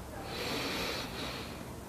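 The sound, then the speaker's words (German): A deep breath drawn in slowly during a guided breathing exercise: a steady, soft, breathy hiss lasting about two seconds, with no talk. “Wir nehmen den ersten tiefen Atemzug und atmen ein”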